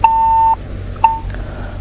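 Beeps of a disconnected phone call: one steady, mid-pitched tone lasting about half a second, then a brief second beep, over a faint low hum.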